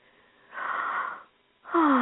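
Slow breathing with a slightly wheezy, airy tone: two breaths, the first a long soft rush of air, the second starting after a short pause and cut off at the end.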